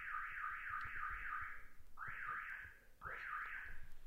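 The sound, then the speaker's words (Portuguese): A neighbour's alarm going off, an electronic warbling siren that sweeps up and down over and over: one longer run, then two shorter bursts after brief pauses. “Tem um som de um vizinho, um alarme que disparou aqui.”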